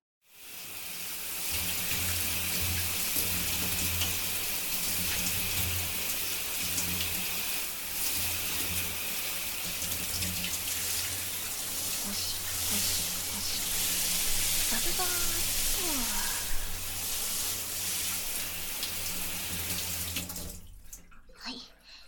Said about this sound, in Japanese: よし、シャンプーはこれくらいにして、お湯かけちゃうね。